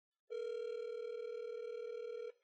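One ring of the ringback tone on an outgoing phone call: a single steady, buzzy tone lasting about two seconds, clear and alone, then abrupt silence.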